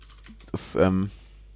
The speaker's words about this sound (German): Achtung, Tastatur